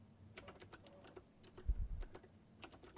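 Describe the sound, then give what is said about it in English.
Rapid keystrokes on a computer keyboard as a few words are typed into a search. The clicks are quiet and come in uneven bursts with short gaps, and one duller thump falls midway. “You got Google up? Yes. All right, I want you to type 3 words.”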